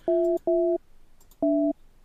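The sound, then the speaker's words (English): Telephone keypad tones as a number is dialed: three steady two-pitch beeps of about a third of a second each. Two come in quick succession, then a pause before the third, loud and without talk. “I'm dialing a number here. I can see that. And I hear the noises in the background.”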